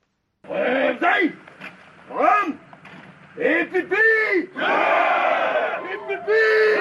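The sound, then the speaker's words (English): Four hundred Cameroonian gendarmes sing as they arrive in Bamenda from Yaoundé, their massed voices rising in loud, chant-like phrases separated by short pauses, turning into a sustained swell toward the end. “This is the sound of 400 Cameroon gendarmes singing as they arrive in Bamenda from the capital Yaoundé as they vow to defend the country's territorial integrity.”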